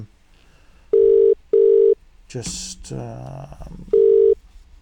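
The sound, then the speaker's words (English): An unanswered outgoing telephone call rings with loud, steady, single-pitch ringback tones. Two come close together, then a gap of muffled noise, then a third tone. “Hopefully she's not shy and ignoring my phone call.”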